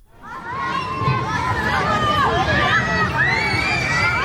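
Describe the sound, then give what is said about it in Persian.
Children and families play happily in a Tehran park, filling the air with lively, overlapping high-pitched shouts, squeals and chatter. The crowd of young voices stays continuous throughout. “این صدای شادی و بازی بچه ها و خانواده ها در یکی از پارک های تهران است.”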